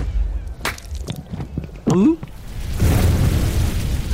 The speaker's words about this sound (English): Look! It worked! Fire! Wow, that is a lot of fire.